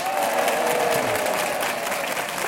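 An audience applauds in a concert hall in Saint-Chef, a dense, steady clapping that stays loud and even for the whole stretch.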